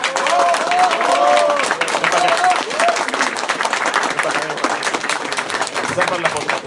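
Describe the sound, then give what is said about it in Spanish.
Loud, sustained applause from an audience at a comic book presentation event, dense overlapping clapping that keeps a steady, full level across the whole stretch with no break. “un fuertísimo aplauso, Ignacio Loranca.”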